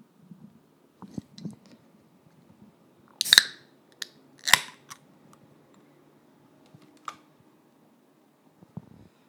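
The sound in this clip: Crinkling and tearing of a snack bag being opened, with a couple of loud, sharp rustling bursts among quieter clicks and scattered rustles, and no talking.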